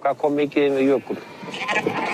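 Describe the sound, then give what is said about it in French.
Sheep bleat on mountain slopes in summer, grazing fresh grass up toward a glacier: two clear, wavering bleats in quick succession, then fainter, rougher calls. “Au cours de l'été, les moutons remontent les pentes pour brouter l'herbe fraîche qui apparaît à mesure que la neige fond.”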